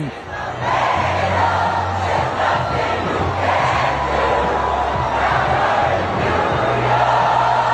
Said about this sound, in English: Can you give me the fans chanting that song again the other day, Phil?